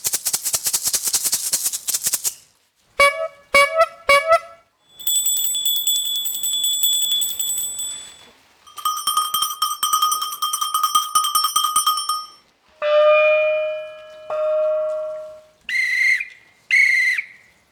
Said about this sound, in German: Also für den Giraffe haben wir die Rassle. Für Nashörner haben wir eine alte Velohupe. Für Zebras haben wir ein Glöckli,